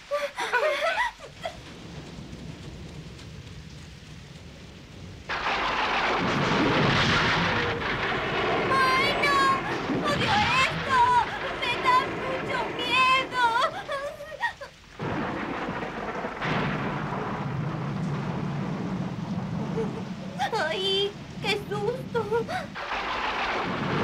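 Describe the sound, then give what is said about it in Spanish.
Heavy rain pours as a broad, steady hiss during a thunderstorm, starting a few seconds in after a quieter opening and staying loud to the end, with voices speaking over it in two stretches. “¡Ay, no! ¡Está lloviendo!”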